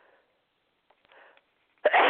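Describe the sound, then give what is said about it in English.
A single loud, sharp sneeze from a person without a cold bursts out near the end, after a stretch of near silence broken only by faint, breathy intakes. “sorry about sneezing.”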